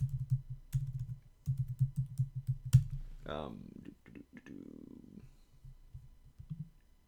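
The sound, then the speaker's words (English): Rapid typing on a computer keyboard makes a dense run of quiet clicks in uneven bursts. A voice speaks briefly, then a few faint clicks return. “Sorry, I'm contemporary. I cannot type and talk apparently at the same time.”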